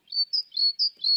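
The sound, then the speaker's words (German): Blue tit song before sunrise: five thin, high chirps in a quick, even series, clear and alone with no other sound beneath. “Nee, dann ist es, das war jetzt die Blaumeise.”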